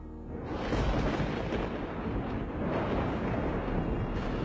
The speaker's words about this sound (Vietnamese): Ở trên bầu trời, sấm sét đã bắt đầu nổi lên đùng đùng, chuẩn bị cho một cơn mưa dữ tợn.